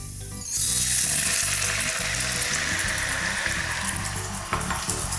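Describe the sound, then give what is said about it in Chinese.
Mushroom soaking water hits a hot pan and bursts into loud, continuous hissing sizzle that starts abruptly and keeps a steady, bright crackle to the end. “然后刚刚的泡菇的水下”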